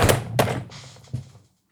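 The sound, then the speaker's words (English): A rim shot drum sting after a joke: a few punchy drum hits and a hissing cymbal wash that fades out, heard alone with no talk. “Rim shot.”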